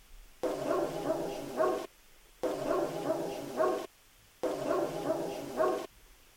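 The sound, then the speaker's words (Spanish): Dogs barking at a sanatorium, in three repeated loud bursts of harmonic barking, each about a second and a half long and separated by short silences, with no talk. “lo primero, los perros estaban ahí, ¿vale? Eso no es nada paranormal.”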